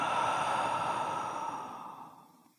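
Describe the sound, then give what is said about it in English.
A slow, deep breath out during a guided breathing exercise: one long, airy exhale heard alone that gradually fades into silence. “Let's do that again. Breathe in and out.”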